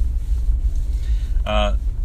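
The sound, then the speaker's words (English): Steady low road rumble from a car being driven, a loud, continuous droning hum that stays even throughout, with a short higher-pitched tonal burst close to the end. “If you didn't know, by the way, that I'm driving, I'm sure you can tell by the turning signals and the road noise.”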